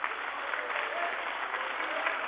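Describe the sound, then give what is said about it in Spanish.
An audience applauds at a political speech, a dense, even wash of many hands clapping that stays steady for the whole stretch without any talking. “cada vez que nombro al presidente Chávez hay aplauso”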